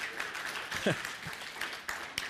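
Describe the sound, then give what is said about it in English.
A church audience bursts into applause for Jesus during a service. The clapping is lively and uneven, with a few sharper peaks and brief vocal sounds mixed in. “Round of applause for Jesus. Go for it.”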